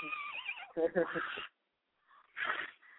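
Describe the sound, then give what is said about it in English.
A woman imitates a horse's neigh with a wavering, high-pitched whinny, then speaks briefly and lets out a short, breathy vocal burst. “Make your horse noise. She sounds like a horse.”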